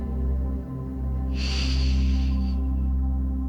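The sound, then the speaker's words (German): A single breath taken during a nose-in, mouth-out breathing exercise: a soft airy hiss lasting just over a second, heard over a steady low humming background. “Einatmen durch die Nase und ausatmen durch den Mund.”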